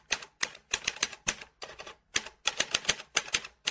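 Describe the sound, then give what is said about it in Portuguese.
Someone types a password on a computer keyboard. Many quick, crisp keystroke clicks come in irregular bursts with short gaps between them. “Deixa eu digitar a senha aqui.”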